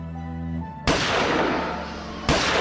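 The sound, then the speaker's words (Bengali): Two deafening gunshots ring out in a stone cave as a drama effect. Each sharp crack is followed by a long, echoing decay, about a second and a half apart, after a low droning tone fades. “কান ফাটা শব্দ হল দুটো গুলির। গুহার পাথরে দেওয়ালে প্রতিধ্বনিত হয়ে আরো জোরালো হয়ে উঠল সেই শব্দের ধাক্কা।”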